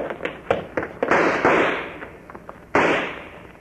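Gunshots fired as covering fire during a standoff by a loading platform: several loud, sharp bangs at irregular intervals, each with a quick decaying tail, ending in one heavy blast near the end.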